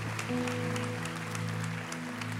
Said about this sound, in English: Come on, put your hands together for the men and women joining us behind bars today.